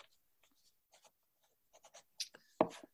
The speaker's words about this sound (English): So I, am going to write. I'll write down who I think, and I'll hold it up after you've answered.